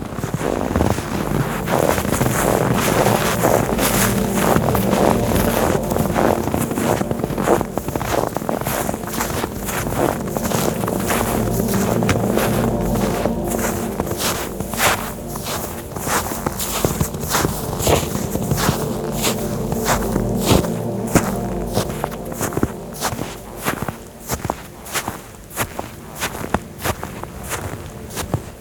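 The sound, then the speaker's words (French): Footsteps and wind fill a winter high-mountain scene on a plateau facing a Pyrenean cirque in cold, dry weather. Many steady footfalls sound over a constant rush of wind, and the steps grow sharper and more distinct toward the end. “Belvédère, sur le cirque de Gavarni, je vous emmène pour une carte postale sonore hivernale.”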